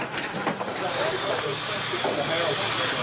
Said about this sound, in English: Captain Jim simply loves the fog of war, but he may live to regret his deed. Smoke grenade.